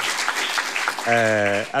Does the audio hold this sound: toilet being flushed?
no